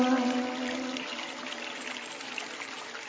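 Water pours in a steady stream, with a soft, even, hissing trickle that stays fairly faint throughout and has no voices.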